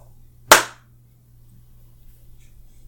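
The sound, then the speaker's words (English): A single sharp hand clap, given as timing practice, cracks out once and fades quickly, followed by near silence over a faint low hum. “Using it as an excuse to practice my timing instead of actually clapping. You're just practicing clapping.”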